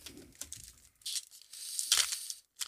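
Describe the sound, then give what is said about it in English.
A trading card pack is torn open in bursts of faint crinkling and ripping foil, with a brief louder tear near the middle. “So, all right, let's crack some packs.”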